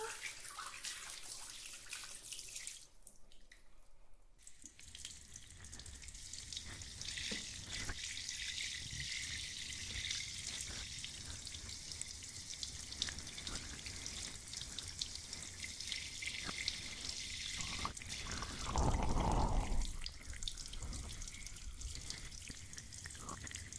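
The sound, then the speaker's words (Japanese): Water runs steadily as hair is rinsed during a wash, a continuous soft spray of fairly even strength with small fluctuations and a brief fuller surge near the end. “流しますよ。”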